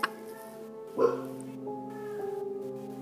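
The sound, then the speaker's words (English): A dog barks outside: a couple of muffled barks rise over a steady, humming background, the first at the very start and a stronger one about a second later. “Ignore my dog barking his mind out outside.”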